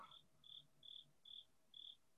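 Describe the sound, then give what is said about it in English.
Crickets chirping: five evenly spaced, high, thin chirps in a steady rhythm, faint against quiet background hiss, with no voices. “I hear actual crickets.”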